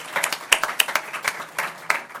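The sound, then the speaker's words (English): Applause for panelists at the close of a conference session: scattered, uneven hand claps from a small audience, bursting in irregular clusters without merging into a continuous roar. “Let's give a round of applause for our panelists.”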